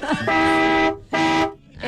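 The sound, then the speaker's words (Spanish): A buseta, a small bus, sounds its horn in two long, steady, brassy blasts separated by a short gap. Each blast is loud and rich in harmonics. “Este es que como de una bucetica. Ese es una buceta.”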